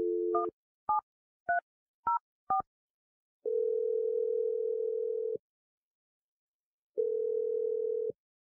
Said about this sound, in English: We're going to dial Adam's number right now.